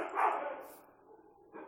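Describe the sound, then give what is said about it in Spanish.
A dog barks with a sharp, mid-pitched bark that trails off, then a shorter bark starts right at the end. “Y un perro invitado que siempre le da un toque especial a este tipo de situaciones.”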